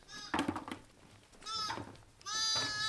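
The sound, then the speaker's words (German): Two newborn Heidschnucke lambs that have lost track of their mother bleat three times. The calls are high and wavering and fairly faint, and the last one is the longest and most sustained. “In dieser Nacht ist bei den Heidschnucken erstmal der Nachwuchs gekommen. Ich glaube, jetzt müssen wir mal gerade gucken, jetzt kommen gerade unsere zwei neugeborenen Lämmer hier dazu, die jetzt hier irgendwie nicht mehr wissen, wo die Mama ist.”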